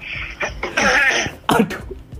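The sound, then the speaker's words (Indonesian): Coughing from a person talking with a doctor: a few harsh, breathy bursts of throat clearing and coughing, loud and abrupt, with short pauses between them and no speech. “Nah ini batuk Dok, nggak apa-apa Dok.”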